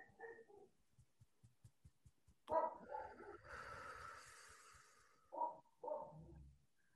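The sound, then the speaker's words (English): Dogs barking, a few sharp, fairly loud barks with a stretch of hissing noise between them, heard alone without speech. “I don't know if you hear my dogs barking now too.”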